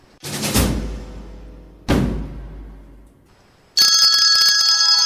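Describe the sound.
A telephone rings for an incoming call, a loud bright ringing burst that follows two deep, booming hits that fade slowly.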